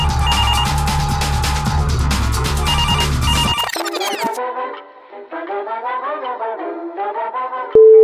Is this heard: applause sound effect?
no